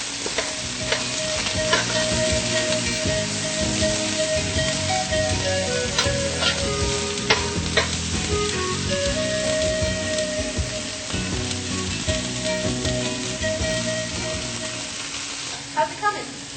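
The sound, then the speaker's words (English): Food browning in vegan soy butter in a pan: a dense, continuous sizzle and crackle, with scraping and stirring throughout at a steady level. “so I'm just going to add a little bit of our vegan soy butter that we like. This will help to really get it browned up too.”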